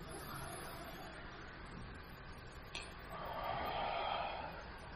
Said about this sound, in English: Please, will you take a deep breath with me?